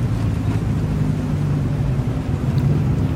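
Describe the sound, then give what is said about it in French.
Engine and road rumble from a red Saab 900 Turbo being driven, a steady low drone that holds an even level throughout without voices. “Dans une voiture rouge, une Saab 900 Turbo, Yuzuke, metteur en scène de théâtre, se laisse conduire par Otto, son épouse scénariste.”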